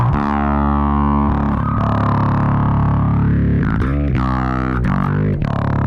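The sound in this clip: Bass guitar through a Source Audio Manta envelope filter pedal gives a thick, distorted tone with vocal, wah-like filter sweeps. Loud and continuous, its notes shift between vowel-like shapes, with no talk.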